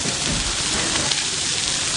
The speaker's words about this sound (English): I'm searing all the venison steaks so that coloring the meat so that we don't lose any moisture when it goes into the oven to finish.